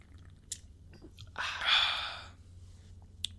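Expensive craft beer cracked open and poured: a brief fizzing hiss that swells and fades within about a second, with faint clicks before and after it.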